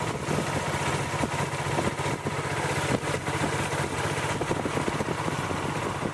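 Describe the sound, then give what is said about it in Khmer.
Motorboat engine running on a flooded river, a loud, steady drone with a fast, even throb throughout and no voices. “លោកខឿនបានធ្វើដំណើរតាមទូកម៉ាស៊ីនទៅមើលភូមិចាស់របស់លោកដែលត្រូវបានទឹកលិច”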